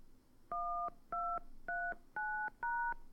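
Telephone keypad tones sound as a voicemail password is entered: five clean, evenly spaced beeps, each with its own pitch, over a faint hiss.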